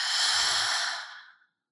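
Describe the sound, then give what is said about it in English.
A long, breathy exhale released after a deep breath during a chakra body-scan meditation. The soft, airy sigh holds steady, then tapers off into silence. “Take a deep breath into the heart and release any stale energy.”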